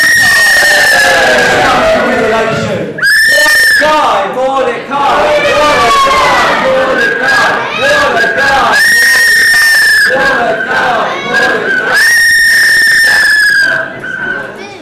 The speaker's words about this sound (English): Everybody waved and cheered and joined the celebration.